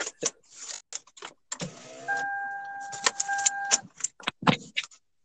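A vehicle engine comes through a call line as a steady hum with a thin, sustained whine, broken by scattered sharp clicks and knocks.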